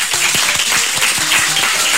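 An audience applauds at the close of an event held at a school. The clapping is dense and continuous at even loudness throughout, with faint tonal sounds mixed in.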